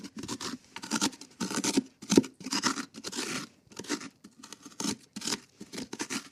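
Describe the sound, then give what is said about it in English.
A spoon scrapes the stringy pulp and seeds out of a pumpkin for carving, making many rough, uneven scraping strokes in quick succession with short pauses between them. “It's almost empty now. Phase two of the pumpkin carving is almost complete. Phase one is always cutting the top off, doing the top hole, and then phase two is the scoop.”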